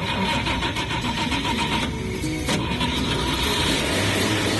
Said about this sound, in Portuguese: Liga o Chevette, meu filho.